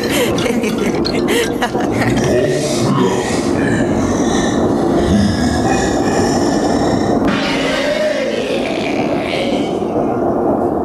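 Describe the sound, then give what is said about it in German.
A train rolling along rails, a continuous loud rumble and rattle that stays steady and dense for the whole stretch without pauses. “Der Zug hielt an.”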